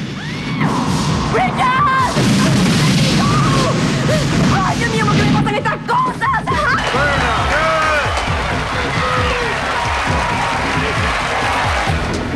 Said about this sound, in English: Fireball shoots and they take cover.